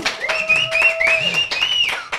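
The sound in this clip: A small group claps, uneven bursts of applause with a few distinct sharp hits, mixed with other tonal sounds and voices.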